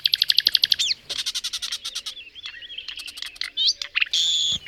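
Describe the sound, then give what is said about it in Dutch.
Song of a Spanish nightingale: loud, high-pitched bird song made of fast repeated notes, rapid trills and varied whistled phrases that change abruptly, ending with a sustained buzzy note. “Dit is een Spaanse nachtegaal, maar je hoort duidelijk het verschil.”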